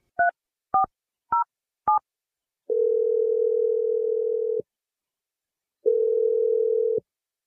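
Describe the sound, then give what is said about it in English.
Telephone ringing after a number is dialed: four quick keypad beeps, then two long, steady ringing tones separated by a stretch of silence. “let's call him and see what the deal is. I'm going to dial his number right now.”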